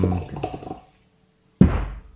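Water is poured aggressively from a water bottle in a short burst of gurgling, splashing glugs. After a silent pause, a single heavy thud is followed by a fading watery rumble.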